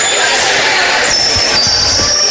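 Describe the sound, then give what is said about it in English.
A volleyball is served by the Eagles during a match, with a few dull ball thumps over steady crowd chatter and a thin, faint high whine. “Good serve by the Eagles.”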